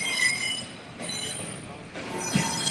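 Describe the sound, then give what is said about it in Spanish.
A train passes with a rumbling roll of rail cars and a high metallic squeal from its wheels. The noise rises and falls as the carriages go by. “Estamos aquí. Está pasando el tren en este momento. Pueden ver.”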